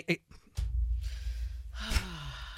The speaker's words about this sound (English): yoga breath